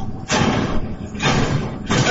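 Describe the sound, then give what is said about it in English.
A door is banged in during a movie scene. Three loud, noisy crashing bursts come in a steady rhythm. “If I see a door getting banged in like that, it's getting pulled in.”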